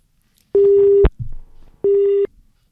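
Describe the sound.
After a phone call drops in rainy weather, the line sounds a steady tone: two flat, mid-pitched beeps, each about half a second long, separated by a short gap with faint crackle.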